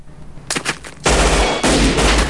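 Gunfire exchanged in a shootout: a few sharp, quick cracks give way to heavy, sustained booming bursts that swell again near the end, loud and dense, with no voices.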